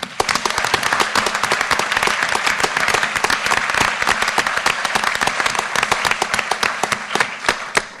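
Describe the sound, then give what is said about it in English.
Sustained audience applause welcoming a speaker at an Australian Equality Party discussion event, dense steady clapping that runs unbroken for the full eight seconds. “Will you please put your hands together for Dr. Lindy Edwards?”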